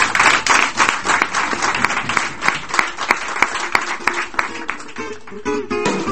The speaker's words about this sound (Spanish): Con este aplauso los oyentes para José Manuel.